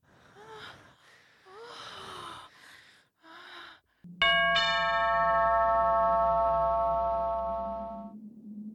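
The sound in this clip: A doorbell rings with one bright chime that sustains and slowly fades over several seconds, preceded by a few short, breathy gasping vocal sounds.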